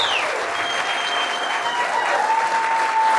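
Applause from a packed live studio audience at a first live recording, a dense, steady wash of clapping that stays level throughout.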